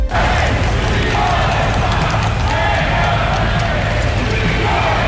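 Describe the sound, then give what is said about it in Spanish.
A large crowd applauds and cheers as the Spanish king and queen arrive with their daughters, producing a loud, dense, continuous roar with a voice talking over it. “Los reyes de España, acompañados de sus hijas, la princesa de Asturias y la infanta Sofía, recibidos con aplausos y vivas”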